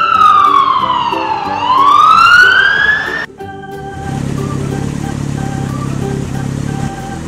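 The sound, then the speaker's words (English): A police car siren wails, sweeping up and down in pitch loudly for about three seconds, then gives way to a steadier droning tone over a low rumble. “Black police car.”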